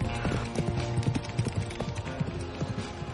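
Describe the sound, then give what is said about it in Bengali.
Four horses galloping during a ride, heard as a fast, busy clatter of dull hoof thuds that runs on without clear gaps, steady and fairly loud throughout. “শনশন করে বয়ে চলা ছুরির মতো ঠান্ডা হাওয়ার মুখে চার বন্ধু ঘোড়া ছুটিয়ে দিল।”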